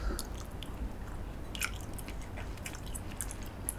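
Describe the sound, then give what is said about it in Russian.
Biting into and chewing a piece of mango, with repeated moist crunches and squishy chewing sounds throughout and no talk. “хочешь попробовать просто кусочек манго? Давай. Ну, вот это вот просто затестим, насколько он вкусный, сладкий.”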